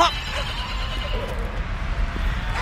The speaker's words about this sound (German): Mein Pferd scheut.